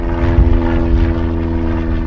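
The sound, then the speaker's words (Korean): A light propeller aircraft, such as a Cessna or Piper, drones at a small airport used by private planes and a flight school, giving a loud, continuous low engine hum with steady tonal harmonics. “세스나기, 파이퍼기와 같은 경비행기와 함께 소형 제트기에 이르기까지 비행기 수십 대가 줄지어 있습니다.”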